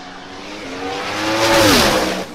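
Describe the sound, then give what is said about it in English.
ProMod twin-turbo drag car on a 5.1-second quarter-mile run, a loud, high-revving engine roar that swells toward a peak, shifts in pitch, then drops away at the end. “I'll play it back because maybe you don't care, but this is a 5.1 quarter mile run from a fucking ProMod twin turbo situation.”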